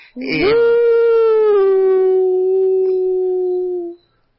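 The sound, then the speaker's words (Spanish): A person's voice imitates a werewolf howl in one loud, sustained cry lasting several seconds. It opens with a rough, rising onset, then holds a long tone whose pitch sinks slowly before it cuts off. “Ese es mi grito de lobizón.”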